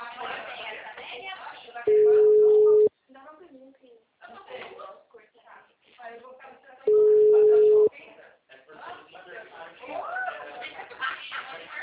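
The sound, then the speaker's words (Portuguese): Telephone busy tone after a dropped call: two long, steady, mid-pitched tones, each about a second, a few seconds apart on a narrow phone line, with people talking before, between and after them. “Caiu a ligação? Caiu.”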